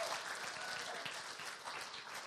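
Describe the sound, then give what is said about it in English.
Applause from a church audience honoring their pastor during a morning service: a steady, fairly faint patter of many clapping hands that holds evenly from start to finish. “Let's give him a round of applause. Thank you, Pastor Sam.”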